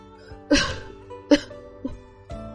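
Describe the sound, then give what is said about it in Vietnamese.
Four dry coughs from one person, short and spaced apart, rising out of a faint, quiet background, the first and second somewhat louder than the last two. “Trong bóng tối lại vang lên tiếng ho khan”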